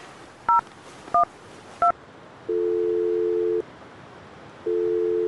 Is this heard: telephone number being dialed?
yes